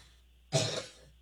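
A single cough from a tickle in the throat: one sharp, loud burst that trails off quickly, with no talking.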